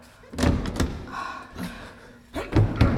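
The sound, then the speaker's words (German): A stuck door is tried but will not open, with something heavy lying behind it, in a partition in an opera house. A few heavy thuds and rattling knocks come in separate bursts, louder near the end. “Ich krieg die Tür nicht auf. Etwas Schweres scheint dahinter zu liegen.”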